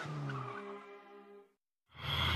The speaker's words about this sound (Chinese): 汽车一阵风似的开走